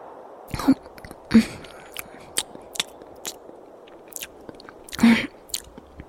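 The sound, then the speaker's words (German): Chewing and biting on a dry piece of bread: a series of crisp, irregular crunches over a quiet background, a few louder bites standing out among softer munching sounds. “Ich hätte nie gedacht, dass so ein trockenes Stückchen Brot so gut schmecken kann.”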